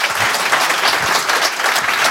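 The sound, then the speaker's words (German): Loud, steady applause from a stage audience welcoming a guest at a Berlin bar-scene event, a dense unbroken wash of many clapping hands from start to finish. “bitte begrüßen Sie mit einem frenetischen, herzlichen Applaus Susanne Baro Fernandez von der Timbadudelbar.”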